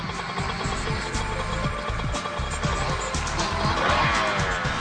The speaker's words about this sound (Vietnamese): Ào ào ào, bốn chiếc Honda chạy tới.